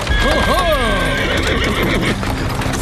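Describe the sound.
A horse pulling a hired horse-drawn cab gives a loud, wavering whinny near the start. Clip-clop of hooves and a steady rumble of the cab continue throughout.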